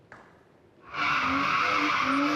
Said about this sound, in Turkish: Hovacık mahallesine bir sürücü trafiğe açık yolda drift attı.